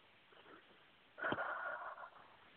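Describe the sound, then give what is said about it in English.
A single slow, deep breath is drawn in, a soft airy inhalation that swells and then eases off, preceded by a fainter breath; it is quiet and heard alone, with no talk. “Take a nice deep breath.”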